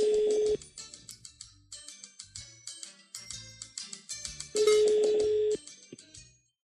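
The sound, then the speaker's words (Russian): Telephone call ringing: a long steady electronic tone, then a run of short bright beeping notes, then a second long tone before the notes fade out, moderately loud and without talk. “Давайте, у меня звонок есть.”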